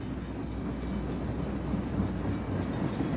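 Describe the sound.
A train rolls through a tunnel, heard from inside a gleaming wood-panelled carriage: a steady, dense low rumble with faint rattling that keeps an even loudness throughout, with no voices.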